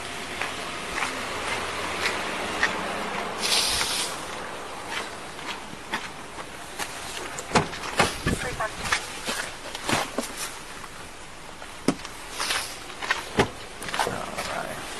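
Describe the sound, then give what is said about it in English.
Footsteps of people walking during a DUI arrest at a Taco Bell drive-thru, with many scattered soft steps and scuffs, some sharper, under people talking. “Alright, we're going to start walking this way. We'll walk over here.”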